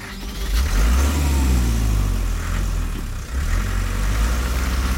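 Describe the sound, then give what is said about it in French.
A car drives off: a loud, steady low engine rumble that dips briefly near the end and then picks up again, with no voices. “il regagne sa voiture et disparaît aussitôt.”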